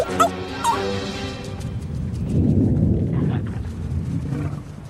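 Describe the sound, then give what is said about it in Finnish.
Low, rolling thunder swells into a heavy rumble and slowly fades over several seconds, after a few brief higher-pitched cries at the start. “Mä oon aika varma, että se oli ukkonen vaan.”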